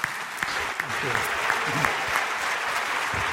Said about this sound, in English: And I want you to put your hands together this morning, give the best Portico welcome we can give to Dr. Ravi Zacharias.